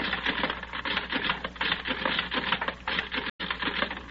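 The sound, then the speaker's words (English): Rapid mechanical clatter of punch cards running through a card classifying machine, a dense, steady rattle that continues throughout with one brief break near the end. “I put Judith's card in the classifying machine, set the controls for matching personality. Then I take all the cards of the men I have and round them through the machine like this.”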